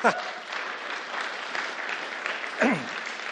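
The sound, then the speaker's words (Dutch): Audience applause for a woman who has just spoken, a steady crackle of many hands clapping at a moderate level, with a couple of brief vocal shouts rising above it near the start and near the end. “laten we haar een applaus geven.”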